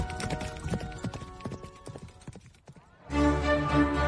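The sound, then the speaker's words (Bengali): A horse gallops hard along a road, its hooves striking in rapid, dense clip-clop beats. After about three seconds a sustained, tonal sound takes over. “ডাটানিয়ান ঊর্ধ্বশ্বাসে ঘোড়া ছুটিয়ে দিল।”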